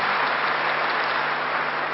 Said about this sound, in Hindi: ताली बजा करके हम इनका आभार व्यक्त